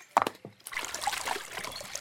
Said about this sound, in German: Und da plätschert das Wasser wieder munter im Bachbett.